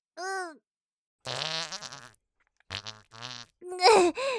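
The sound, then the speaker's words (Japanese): A few fart sounds of varying length, some drawn out and rumbling, others short and sputtering, with quiet gaps between them. “どうせ見えないし聞こえないなら、ブリブリこき放題。”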